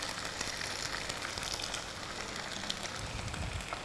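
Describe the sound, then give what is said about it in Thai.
Egg whites sizzle in a little oil poured along the side of a tilted frying pan, a steady crackling hiss with scattered faint pops throughout. “เราเอียงกระทะมาข้างหนึ่งแล้วก็ใส่น้ำมันไปนิดนึงนะคะด้านข้างแล้วก็นำไข่ขาวใส่ลงไป”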